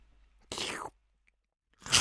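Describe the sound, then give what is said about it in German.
Crunchy chewing of sweets, heard as two short, crisp bursts of crunching separated by a near-silent pause. “Genüsslich schmatzend schob es, was es an Naschilinzchen fand und greifen konnte in sein riesiges Mäulchen.”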